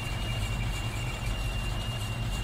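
Engine of a military vehicle driving in a video game, a continuous low rumbling drone with a thin, high steady whine above it.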